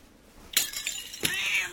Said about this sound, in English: Where are you going? After the cat?